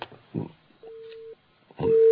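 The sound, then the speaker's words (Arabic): Busy tone from a phone call that was cut off: a steady low beep sounds, falls silent, then starts again, with brief voice sounds before each beep. “كان في اتصال يا ولاد وفصل.”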